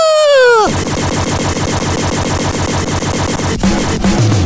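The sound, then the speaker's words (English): A gunshot sound effect plays from a soundboard button. A loud whistling tone drops sharply in pitch, then a long, dense, rapid rattle of gunfire-like cracks follows. “I try not to press that button too much, but that was a shot fired.”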